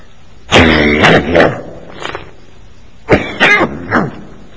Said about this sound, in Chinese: 我这个咳嗽有很多不同的原因